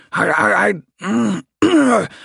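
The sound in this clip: A voice performs a big male drake clearing his throat in three gruff, voiced bursts separated by short pauses, the last one sharper.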